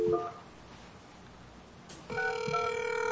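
Telephone call being placed: a short tonal beep opens, followed by quiet line hiss. Then a steady, buzzy ringing tone with strong harmonics starts and sounds until the end.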